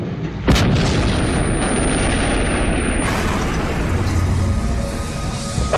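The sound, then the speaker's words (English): Gunfire from snipers in a chaotic gunfight with terrorists: one sharp, loud crack early on, followed by a sustained, rough, booming roar of noise that stays loud to the end. “German snipers eliminate five of the eight terrorists in the chaotic gunfight.”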